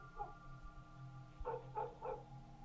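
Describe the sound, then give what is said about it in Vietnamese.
Dogs barking in a village at night: a few faint, short barks, one early and three spaced out in the second half, over a low steady hum. “chó ở trong làng cứ thế sủa cả lên”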